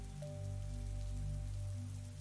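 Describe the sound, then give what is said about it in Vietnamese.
Heavy rain pours down outside before dawn as a continuous, even hiss of drops. It is faint, with a steady low hum and a thin tone beneath it. “trời sắp sáng, nhưng mưa vẫn còn xối nước không ngừng. Bên ngoài âm thanh rào rào cứ vang lên”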